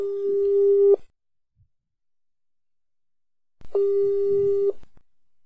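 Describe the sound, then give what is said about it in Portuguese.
Ringback tone of a phone call waiting to be answered: two steady, mid-pitched tones about a second each, separated by nearly three seconds of silence, with faint noise trailing after the second. “A gente vai ligar para Ana, vai ligar sim. Ela me atende quando é para falar coisa boba. Vamos ver se ela me atende agora.”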